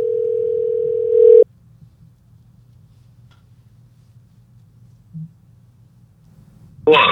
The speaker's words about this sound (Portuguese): Deixa que a gente te liga.